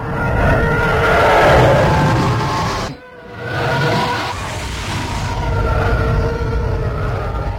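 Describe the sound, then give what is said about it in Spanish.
Roaring Star Wars spacecraft sound effects that resemble Formula 1 racing: a loud, sustained engine-like rush that dips sharply about midway, then swells back and holds steady. “Sonidos de Star Wars que más tienen que ver con una carrera de Fórmula 1 que con la realidad.”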